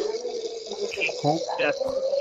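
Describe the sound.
Liquid pours into a glass, a faint watery trickle with a ringing tone that lifts slightly in pitch, heard under people talking.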